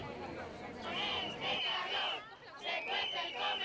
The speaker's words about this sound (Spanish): Son padres e hijos protestando en Zaragoza por el calor que hacen en el comedor del Colegio Público Parque Venecia.